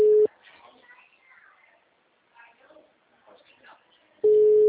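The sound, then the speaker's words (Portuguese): Ringback tone of a phone call that goes unanswered. A steady, mid-pitched beep sounds briefly at the start and again near the end, with people talking quietly in between. “Tá atendendo? Não, tá chamando, mas não tá atendendo.”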